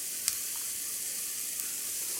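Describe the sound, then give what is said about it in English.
Mixed vegetables and carrots fry in a pan for fried rice, giving a steady, bright sizzle and hiss throughout, with a couple of faint ticks and pops. “You can really hear the veggies going to work here in the pan. You can tell my carrots aren't quite there yet.”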